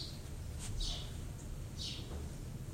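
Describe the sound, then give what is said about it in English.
Bird calls from outside a window, heralding spring: a few faint, high chirps scattered over a low, steady background rumble, with no talk. “You know that bird's actually screaming, "Let me in," right? He's staring right at you guys. It's a herald of spring.”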